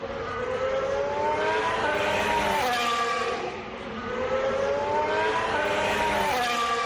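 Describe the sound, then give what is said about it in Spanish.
A Williams Formula 1 car's engine on a lap, a high-pitched whine that climbs steadily, dips briefly, then climbs again, loud and continuous with no talk. “que es el primer momento, la primera vuelta de Carlos Sainz al volante de un Williams. Y ahí estaba, testigo directo, la cadena COPE. Vamos a escucharlo.”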